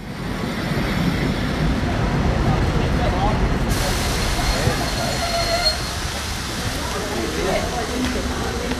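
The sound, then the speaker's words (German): An express train pulling into Bebra station: a loud, continuous heavy rumble of rolling wheels and carriages, broad and steady from start to finish. “Dieser eingefahrene Schnellzug fährt weiter nach München-Gladbach.”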